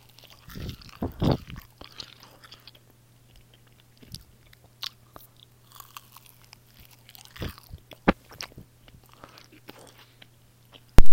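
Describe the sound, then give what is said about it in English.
Close-up crunchy bites and chewing of a 7-Eleven taco and cheese taquito: many sharp crackles and crunches come in irregular bursts between quiet pauses, a heavier flurry near the start, over a faint steady hum. “Now, here is the ASMR. Of the taco and cheese taquito.”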